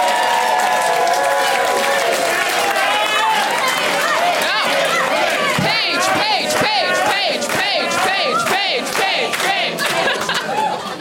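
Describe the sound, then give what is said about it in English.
A loud audience at a comedy show chants for one of its members, a roaring mass of voices and cheers that settles into a rhythmic, pulsing chant. “That might be the first chant for an audience member.”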